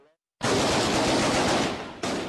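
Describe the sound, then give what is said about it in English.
Heavy gunfire and explosions from fighting in Syria burst in abruptly as a loud, dense roar of noise that dips briefly and then surges again. “Heavy explosions and gunfire continue to shake Syria.”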